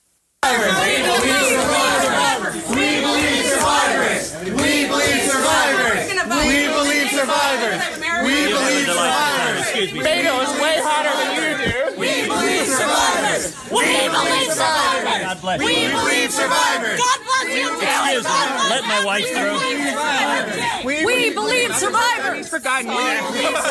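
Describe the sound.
Protesters chant at Ted Cruz, a dense, continuous mass of overlapping voices that stays loud and steady throughout.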